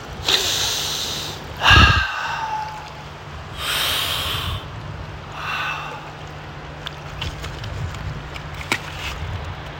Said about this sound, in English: just take five inhales through the nose and exhales through the mouth.